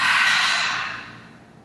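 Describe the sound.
A deep exhale during a breathing exercise, one long breathy rush of air that starts strong and slowly fades away.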